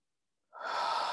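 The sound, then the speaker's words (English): A deep breath drawn in as one steady, airy inhale that starts abruptly after a short silence and holds at an even loudness to the end, with no voice. “Take a deep breath in.”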